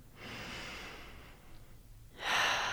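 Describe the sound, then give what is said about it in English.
Deep breathing during a guided meditation: a long, soft breathy inhale, a brief quieter stretch, then a louder, airy exhale at the end, heard alone without talk. “take a big breath in. And exhale. Again.”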